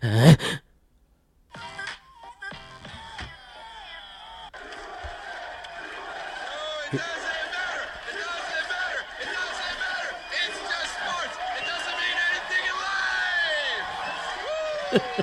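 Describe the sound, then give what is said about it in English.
A rowdy crowd watching the World Cup in a bar: many voices shout, whoop and wail over one another, growing louder and denser after a few brief sounds and a short near-silent gap at the start. “He's in the middle of like a giant ruckus crowd of people watching the World Cup. Okay. He went to the World Cup? No. He's just watching it at a bar. Oh, at a bar. Everyone else is flipping out”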